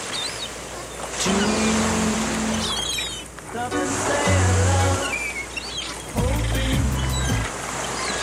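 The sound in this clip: Steady sea surf rushes throughout, its broad hiss broken by a few very short snippets of sung music that surface briefly within the noise before fading back.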